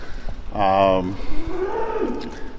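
Dairy cows moo in a barn: one loud, strongly harmonic moo is followed by softer, lower lowing.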